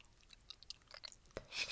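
Someone chewing food while eating, with soft, irregular crunches and moist bites, faint and alone with no talk.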